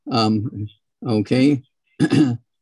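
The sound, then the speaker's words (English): A person clears their throat three times, each a short, voiced, rasping burst separated by brief pauses, as in a habit of frequent throat clearing from built-up mucus. “clearing the throat like that all the time, accumulating mucus”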